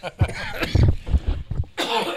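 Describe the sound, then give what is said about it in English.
A man with a lingering cough, despite taking medication, coughs a few times. Harsh, throaty bursts are followed by a brief rougher sound at the end. “I'm taking medication, but the cough's still with me.”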